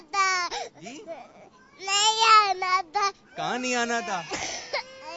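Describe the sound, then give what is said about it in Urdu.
Young boys crying at the Dar-ul-Madinah school: loud, high wailing sobs in broken bursts with rising and falling pitch, plus shorter whimpers and catches of breath between the cries. “کچھ مدنی منے جو ہے رو رہے ہیں. کیوں رو رہے ہیں؟ کیا ہو گیا؟”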